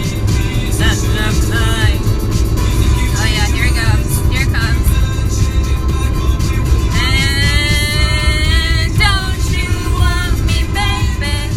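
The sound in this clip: A car driving from Stoke-on-Trent to Manchester produces a loud, steady rumble of engine and road noise throughout, with voices talking over it.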